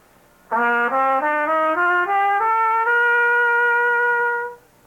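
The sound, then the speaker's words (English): A brass instrument plays a legato scale, each note sliding smoothly into the next as the pitch climbs step by step in one connected, sustained line, then the last note holds and cuts off. “When we play a melody that way, we call it legato playing. That's when one note is run right into the next one. A scale played that way sounds like this.”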